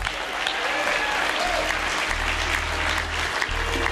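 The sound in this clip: Sustained applause from a concert audience welcoming a bass and dobro player joining a bluegrass band on stage. The clapping is dense, even and steady from start to finish, with no distinct voices rising above it.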